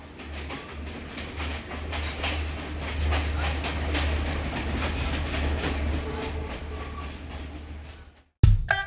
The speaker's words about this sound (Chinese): 车站广播之后，火车开动了。在车轮与铁轨的撞击声中